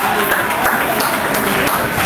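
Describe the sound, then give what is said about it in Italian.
A baseball crowd applauds a young home-team player's base hit with a dense, steady patter of clapping that lasts the whole time, and a voice talks over it. “Un bel applauso, dai, forza! Va bene, dai. Il giovane di casa gli viene data la valida, gli applausi.”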